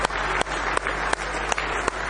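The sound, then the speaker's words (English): A church audience claps hands in praise, a thick wash of applause punctuated by sharp, louder claps falling in a steady, regular beat. “real big hand clap of praise.”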